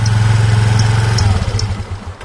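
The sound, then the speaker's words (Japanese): Moped engine running during a ride from a shrine: a loud, steady low throbbing drone that turns rougher and more uneven toward the end. “相模大野女子高校原付部のさやちゃん、うたちゃん、そしてはなちゃん、今回は大沼神社から川の姿を求めて原付を走らせています。”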